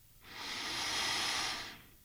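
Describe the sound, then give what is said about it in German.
One deep breath drawn in during a guided relaxation exercise: a soft, airy hiss that fades in, holds steady for over a second, then tapers away. “Atmen Sie tief ein”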